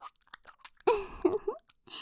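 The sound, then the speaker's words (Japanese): Chewing mouth sounds: scattered soft, wet clicks, then a louder squelchy burst with short voiced hums, followed by a few more faint smacks. “咀嚼して絞り出してあげるわ。”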